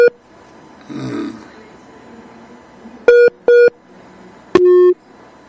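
Line tones sound as a phone call cuts off: two short, identical beeps, then a longer, slightly lower tone, after an earlier low grunting noise.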